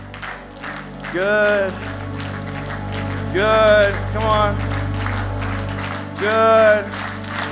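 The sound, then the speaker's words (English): A group of people claps hands to imitate rain, making a steady, dense patter of many claps under a voice calling out short words of encouragement. “Yeah, that's the sound of rain. That's what rain is like, right?”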